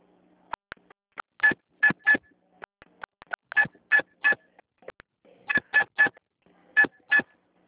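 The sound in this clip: Telephone keypad DTMF tones as a card number is keyed into an automated bank card line: many short, bright beeps in quick clusters separated by pauses, with fainter ticks between them.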